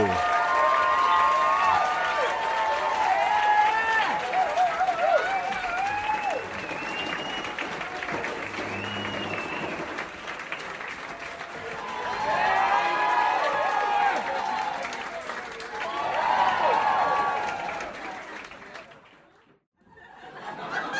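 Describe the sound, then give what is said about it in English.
Live audience applauding and cheering with high whoops as a performer is introduced, loud and sustained, swelling again twice in the second half before dropping away sharply near the end. “Put your hands together for Tally Ho!”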